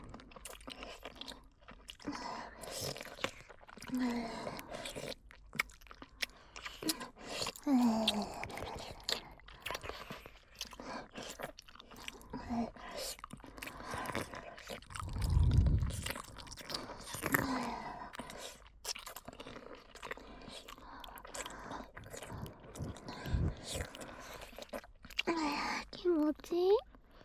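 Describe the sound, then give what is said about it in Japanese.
ASMR licking mouth sounds: many soft wet smacks, clicks and slurps come in an uneven stream, some louder than others, with occasional whispering among them. “舐め音に包まれて気持ちいいですね。”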